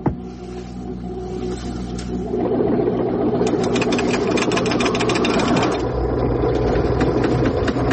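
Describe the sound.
Car engine cranks into life and settles into a rumbling idle, with fast mechanical clatter throughout; the running sound steps up in loudness after about two seconds and then holds steady, with no talking.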